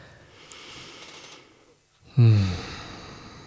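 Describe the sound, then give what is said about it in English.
A single deep breath enters sharply partway through and stays loud and airy to the end, following a few seconds of quiet, low background noise. “I would like to invite you all to just take a moment to take a deep breath.”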